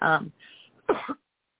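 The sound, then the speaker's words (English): Someone clears their throat after a moment of choking, with short, gravelly rasps after a bit of voiced sound, fairly quiet overall. “let me clear my throat. I feel like I was choking for a second.”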